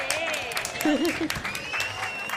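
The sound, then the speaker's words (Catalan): Applause during an olive oil tasting game: a short burst of many hands clapping, with a voice speaking over it. “Clar, molt bé. Un aplaudiment, molt bé.”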